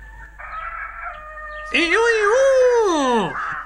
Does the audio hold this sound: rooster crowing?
yes

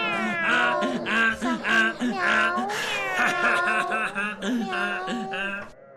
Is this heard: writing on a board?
no

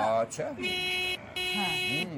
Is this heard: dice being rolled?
no

